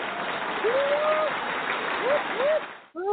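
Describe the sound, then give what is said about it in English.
Audience applause during a round of applause for Black women at a gathering: steady, dense clapping with a few brief vocal calls over it, dipping abruptly near the end before resuming. “And then we're going to go ahead and give a round of applause for the black women”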